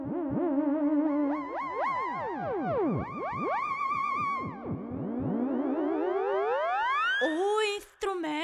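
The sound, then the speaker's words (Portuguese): An old electronic instrument played by moving the hands in its field: continuous gliding tones that swoop up and down with wavering vibrato, ending in a few sharp rising sweeps. “É um dos instrumentos eletrônicos mais antigos e responde aos movimentos das mãos!”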